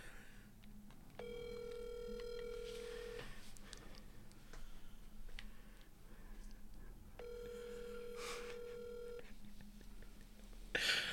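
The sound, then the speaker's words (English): Ringback tones of an outgoing phone call that goes unanswered: two long, even rings separated by a pause, fairly faint over a low, noisy background. “So we're going to call Tyree.”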